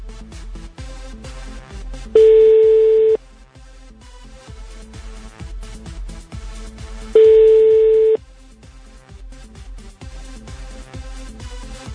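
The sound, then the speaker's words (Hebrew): Two long, steady telephone ringing tones, about five seconds apart, play while someone is being called, sounding over a constant rhythmic music beat. “יעל, מצלצלים ליעל.”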